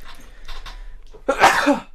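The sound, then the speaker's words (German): A single sharp sneeze bursts out loudly after a few faint, breathy sounds, then tails off quickly. “Entschuldigung, das werde ich rausschneiden. Aber trotzdem Gesundheit.”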